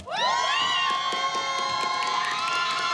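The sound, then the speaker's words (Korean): A crowd cheers and shouts for a team after a dance performance at a live show, a loud, sustained roar full of high excited voices. “자 이거는 그러면 우리 밖에 계신 돌랑이들의 환호 소리로 한번 일단 제가 들어볼게요.”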